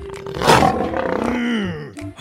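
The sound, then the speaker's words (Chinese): A lion gives one long, loud, rumbling roar that lasts about two seconds before trailing off. “大狮子一出来啊，就表现出凶猛的气势哦，大家别怕别怕。”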